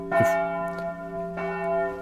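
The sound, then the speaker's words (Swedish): A bell rings at a horse race track to mark the final stretch, struck a few times, each strike a bright metallic clang whose rich, sustained overtones ring on between blows; no voices. “Det är ju magiskt här nu att vi får in klockringningen i direktsändning. Ja, är det upploppsklockan vi hör? Ja, det är upploppsklockan.”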